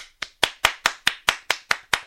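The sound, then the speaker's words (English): Nine crisp hand claps in an even, steady rhythm, each sharp and quickly fading, with no voices or other sound around them. “a round of applause for the show tonight.”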